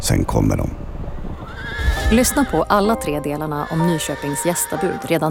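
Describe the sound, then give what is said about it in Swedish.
Hoofbeats of hundreds of horses rumble like thunder under a speaking voice, and a horse whinnies over the galloping. “Marken vibrerar. Och det mullrar som av åskan, men det är ljudet av hundratals hästhovar.”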